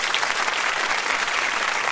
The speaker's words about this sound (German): Applaus, Applaus.